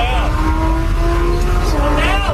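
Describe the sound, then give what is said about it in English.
A high-end car accelerating hard at breakneck speed, its engine droning loudly and climbing in pitch as voices talk over it. “They are high-end cars.”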